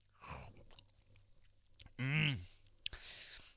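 Quiet chewing of a torn-off piece of food, with soft crunches and small wet clicks and a short voiced hum partway through.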